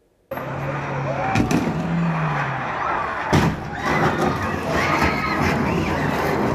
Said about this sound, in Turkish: Buz tutan yolda saniyeler içinde ard arda iki otomobil kayarak vatandaşların arasına daldı.